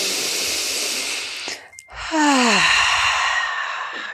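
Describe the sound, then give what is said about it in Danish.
A full deep breath during a yoga class: a long, breathy inhale, a brief pause, then a louder exhale that ends in a falling, voiced sigh. “Alright, en fuld vejrtrækning mere.”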